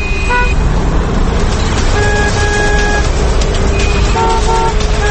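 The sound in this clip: Loud, steady roar of city traffic heard while driving in town, with car horns honking throughout in several short and longer sustained toots that overlap one another.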